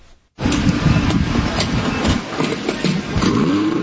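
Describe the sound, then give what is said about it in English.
A fuel-hungry motor engine kicks in abruptly after a short quiet moment, then runs loud and steady with a rough, clattering rumble that barely changes in level. “Boy, that motor sounds like a gas guzzler right there.”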